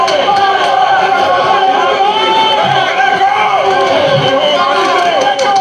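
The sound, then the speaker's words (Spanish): Football fans jeer San Lorenzo players after a derby won by Huracán. A dense, loud, steady roar of many voices holds at even level throughout. “Y los futbolistas de San Lorenzo han quedado en el medio. Levantan sus brazos, pero reciben hoy el abucheo de su gente.”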